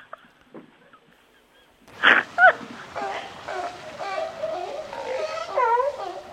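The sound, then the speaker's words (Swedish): A voice imitates a seal with two loud barking bursts, then a stretch of honking, moaning calls. Quiet talk comes before it. “Vill du höra sälen? Vad sa du? Sälen.”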